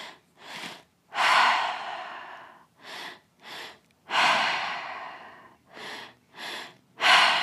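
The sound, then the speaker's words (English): Deep breathing during a guided breathing exercise, drawn into the belly and chest: several loud, airy breaths in and out, some long and drawn-out and others short, separated by brief silences, with no talking. “coming back to the breath, deep breath into the belly, deep breath into the chest.”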